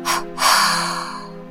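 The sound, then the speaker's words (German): Breath released in two bursts while letting go of body tension after holding it: a short puff, a brief pause, then a longer exhale that slowly fades, over a soft sustained tone. “Dann atme auf zwei Stöße lösend wieder aus und lasse die Körperspannung los.”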